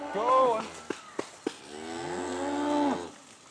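Cattle mooing on a year-round pasture: two long, drawn-out lowing calls, the second longer and fading away, with a few sharp clicks between them.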